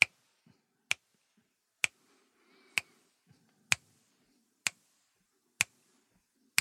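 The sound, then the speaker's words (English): Eight crisp finger snaps at a steady, even pace, each a sharp, bright click standing alone, with only faint low rustling between them. “To snap, S-N-A-P, your finger is to make a noise with your finger like this.”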